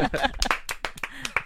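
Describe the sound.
A few hand claps applaud Hufflepuff, the Harry Potter house. The sharp, scattered claps mix with talking voices.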